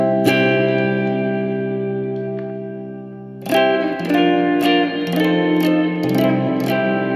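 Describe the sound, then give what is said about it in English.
Electric guitar played through an amp on a clean setting with the gain turned off: one ringing strum fades slowly, then a run of bright, rhythmic strummed chords follows, sustained and full with no distortion. “I'm gonna turn off the gain here. Let's just do clean amp. Clean amp.”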